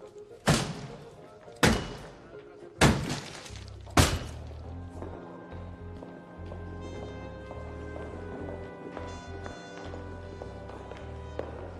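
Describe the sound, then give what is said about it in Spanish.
Four heavy blows of a big hammer smashing something, loud evenly spaced crashing impacts, followed by soft sustained music. “¿por qué no usas el martillo grande? Sí, señor. ¡Use el martillo grande, rápido!”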